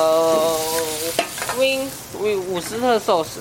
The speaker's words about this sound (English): Saute. What is saute? Saute is the way you're cooking the vegetables.